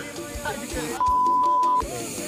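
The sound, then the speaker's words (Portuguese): A smoke machine releases smoke in one loud, steady hissing burst of just under a second, with a level tone running through it. Voices and low thumps come before and after. “Tem que ser, pode soltar a fumaça aqui.”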